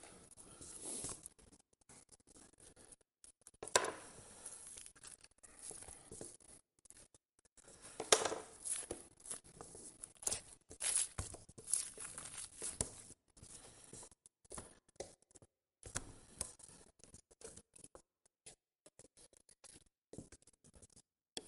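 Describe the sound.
Soft scraping and slicing as a knife trims sinew and gristle off sticky raw meat, many faint, irregular strokes with no talking.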